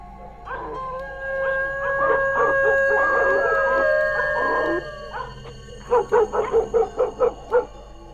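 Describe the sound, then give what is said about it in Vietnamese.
A pack of village dogs howling together in long, wavering, mid-pitched tones, then breaking into a quick run of sharp barks and yips near the end; loud, with no talk. “Thỉnh thoảng bầy chó còn chu lên những tiếng nghe đến rát cả ruột, buốt cả gan.”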